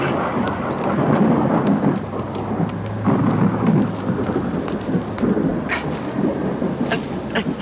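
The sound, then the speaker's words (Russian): Steady rain pours with low, rolling thunder rumbling beneath it as a rainstorm begins, a dense, continuous hiss of drops that stays loud throughout with no voices. “Начинается дождь.”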